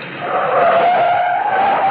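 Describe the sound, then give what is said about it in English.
An old sports car's engine is gunned as it pulls up to the curb on the Sunset Strip, giving a loud, sustained roar with a strained whine that climbs slightly in pitch across two seconds. “Pierrot Place, a joint on Sunset Strip, the car jock gunned my old sports car up to the curb.”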